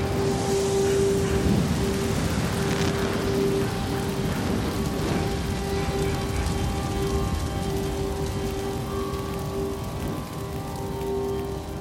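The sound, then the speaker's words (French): A thunderstorm breaking with rain: a dense, steady hiss of rainfall fills the whole stretch at a constant loud level, with a sustained low tone running underneath throughout. “L'orage éclate.”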